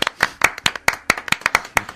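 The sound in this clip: Hands clap in a quick, fairly regular series of sharp, bright slaps, about a dozen in all, with no voices.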